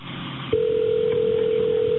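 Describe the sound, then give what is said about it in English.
A telephone tone on a dispatcher's line as a call back is placed: after a short quiet lead-in, one steady, fairly loud tone starts and holds a single pitch to the end, with no voices. “So the dispatcher calls back over there and talks with the second caller.”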